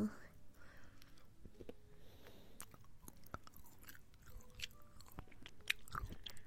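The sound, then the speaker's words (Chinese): Soft chewing and biting on food, with crisp little crunches and wet mouth clicks scattered irregularly, very quiet and close, with faint whispering around them. “你吃一口，姐姐也吃一口，咱们一人一口好不好？”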